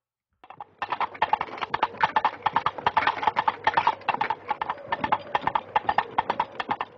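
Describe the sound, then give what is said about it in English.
Clip-clop of horse hooves evoking King Arthur approaching a castle: a loud, quick, steady run of hoofbeats that starts after a brief silence and continues to the end. “you'll recognize the sound you're hearing as that of King Arthur approaching a castle”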